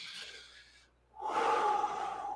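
A deep-breath sound effect: two breathy rushes separated by a short pause, the second longer and louder than the first.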